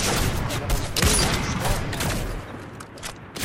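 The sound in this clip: Sniper rifle shots ring out during a video game match: several sharp, loud cracks cut through dense, continuous game noise and other gunfire-like bursts, with the racket easing somewhat toward the end.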